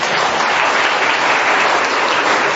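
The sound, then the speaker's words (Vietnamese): Children clapping hands together at a church gathering, a loud, dense and steady roar of applause with no pauses. “vỗ tay to lên, thiếu nhi vỗ tay to lên, bạn mình coi vỗ tay lên, 1, 2, 3”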